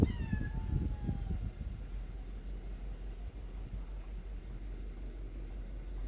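A pet cat gives a single meow whose pitch slides downward, followed by a steady low background rumble.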